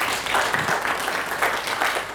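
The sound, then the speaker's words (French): An audience at a farmers' fair gathering applauds with dense, steady clapping that swells slightly in waves throughout. “Et applaudi par l'Assemblée, c'est super.”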